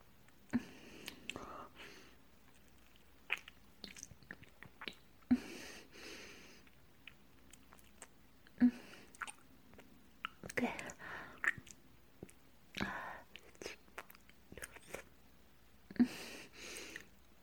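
Chewing of food being fed by hand: soft, wet mouth sounds and small squishes come in scattered brief bursts, quiet and close, with faint breaths between them.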